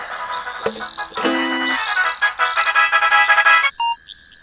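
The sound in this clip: Phone ringtone of an incoming call: a bright, melodic run of electronic tones that starts with a couple of sharp clicks and ends with a few brief, softer beeps.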